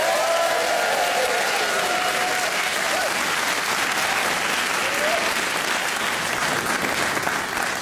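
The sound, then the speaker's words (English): Audience applause welcoming a comedian onto the stage, a dense, loud and steady wash of clapping from a crowd that holds for the whole stretch without pause. “Give it up for Otto Kuhnle.”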